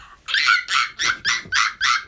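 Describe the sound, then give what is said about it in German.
A person imitates a baby monkey with six short, high-pitched squeaky yelps in an even rhythm, each a brief bright burst, with no other sound. “also kannst du noch einmal live im Radio bitte einen Affen imitieren?”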